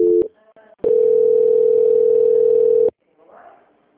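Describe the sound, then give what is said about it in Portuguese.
Telephone tone while a call is transferred to an audit department: a brief tone blip, then one loud, steady, mid-pitched tone lasting about two seconds before it cuts off to faint sound. “Agora eu vou transferir para a auditoria.”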